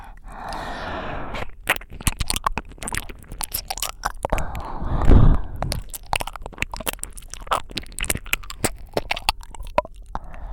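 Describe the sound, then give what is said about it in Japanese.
Wet mouth sounds of a finger being bitten and licked: many small clicks, smacks and crunchy bites in an irregular rhythm, moderately loud, with no speech. “指を口に入れられた瞬間、目がトローンってしちゃいましたね。”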